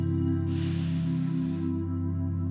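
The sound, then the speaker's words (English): A deep breath drawn in during a guided relaxation exercise: a soft, breathy rush of about a second over a steady, sustained musical drone, with no talking. “So let's take another deep breath in, receiving the truth, receiving the breath.”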